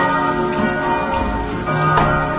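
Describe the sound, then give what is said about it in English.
Church bells ring outside in a loud, continuous peal. Overlapping strikes blend into sustained metallic tones that hum and shimmer throughout without a break. “we might just close these windows till the bells finish.”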